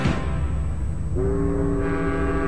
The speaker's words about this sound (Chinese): 中午12时，黄浦江上轮船和各工厂汽笛齐鸣